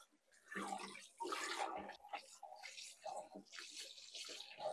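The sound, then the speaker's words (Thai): Water splashes and sloshes as something is washed and rinsed repeatedly until the water runs clear. The splashing is faint and comes in uneven bursts with short pauses. “ล้างจนน้ำเขาใสเลยนะคะ”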